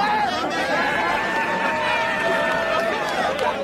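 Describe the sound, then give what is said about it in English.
A crowd hoots and hollers during arrests at a protest, with many overlapping voices giving drawn-out whoops and shouts that slide up and down in pitch, loud and continuous. “The company crowd hooted and hollered at James Hansen and Daryl Hannah as they were arrested. Well, that video clip came from West Virginia Public Broadcasting”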